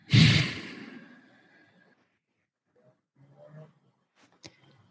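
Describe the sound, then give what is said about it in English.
A deep breath during a guided prayer, mostly one loud, breathy rush of air that fades away over about two seconds, followed by a few faint, soft sounds. “Nice deep inhale. Exhale.”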